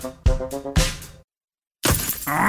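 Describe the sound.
Sharp glass impacts and cracking from a stone chip striking a car windscreen: a few loud, bright hits early on, a brief silence, then a sustained burst of crackling, shattering glass.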